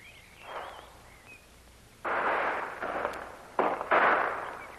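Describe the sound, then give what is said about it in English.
Gunshots from a lone rifleman holding a ridge against attackers firing from the hillside below. A few sharp, noisy reports sound: a fainter first one, then louder shots, the last two close together. “it's only one man. You can tell by the shots. One man? Yeah. Appears to be holding off quite a body of attackers who are firing on him from the side of the hill below him.”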